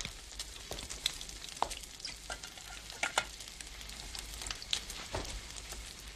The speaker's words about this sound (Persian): ماهیتابه پر از نیمرو را روی میزی می‌گذارد و خودش هم کنار میز می‌نشیند.